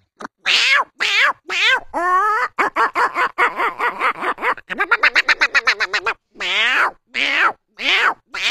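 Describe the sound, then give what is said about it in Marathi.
A person imitates the call of a bhringraj bird: many rapid whistled, warbling notes with sweeping pitch, grouped in varied phrases that include quick trills, with short pauses between bursts. “तसाच जंगलात जाताने एक भिंगराज पंक्षी म्हणून कसा काय आवाज देता, ते भिंगराज पंक्षीचा आवाज देतो.”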